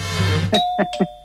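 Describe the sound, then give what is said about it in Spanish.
Doorbell ringing: a few bright chime strikes in quick succession, each tone ringing on and slowly fading, after a brief stretch of soft tonal sound. “¿Un toque de timbre o no?”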